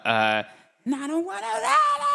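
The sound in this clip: A voice imitates a rock singer's soaring scream from a power ballad's final chorus. A short sustained note breaks off, and after a brief pause a loud wailing tone slides steadily upward in pitch.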